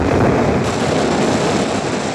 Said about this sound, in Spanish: en la lancha costera el fin está cercano, grandes torrentes de agua se precipitan sobre la cubierta